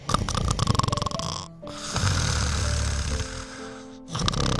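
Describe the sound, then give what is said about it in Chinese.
A person snoring, with rough, rasping breaths broken by short pauses. The snores are fairly loud, and a few drawn-out pulls carry a low buzzing drone. “就是打呼噜这件事情，说实话，谁不打个呼噜呢？”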